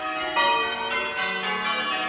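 Church bells ring a long peal in change-ringing method, with many overlapping bell strokes forming a continuous, moderately loud shimmer of metallic tones and no voices.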